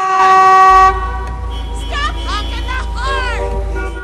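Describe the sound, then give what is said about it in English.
Car horns honk in a city traffic jam: one long, loud horn blast, then a few shorter, wavering tones over a low, steady engine rumble. “Traffic clogs a city street.”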